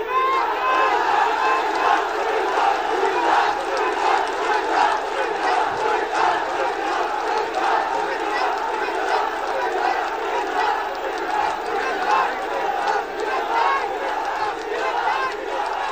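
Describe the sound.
A large crowd at a political rally shouts and chants its demand for a Comilla division: a loud, dense, continuous roar of many voices that holds steady and unbroken throughout.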